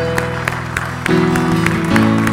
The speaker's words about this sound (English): Let's give him the glory that is due his name. Let's give him a round of applause today that gives him the glory.